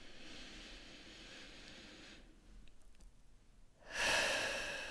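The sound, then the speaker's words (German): A deep breath during a guided relaxation exercise, drawn slowly in through the nose, then a brief pause and a louder, breathy exhale out through the mouth, heard alone. “nimm ein paar tiefere Atemzüge durch die Nase ein und durch den Mund aus.”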